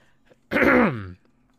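A single throat clearing from a dry throat: a short, voiced rasp of under a second that rises sharply and fades, heard alone against near silence.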